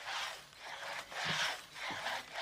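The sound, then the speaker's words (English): Rasping back-and-forth strokes of a long two-man saw cutting through a huge tree trunk, a few steady rhythmic pushes and pulls of fairly even loudness. “Elsewhere, Saul and another worker use a long two-man saw to cut through a huge tree trunk.”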